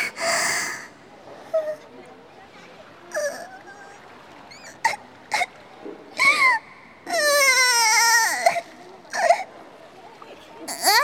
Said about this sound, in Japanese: ちょっと泣かないで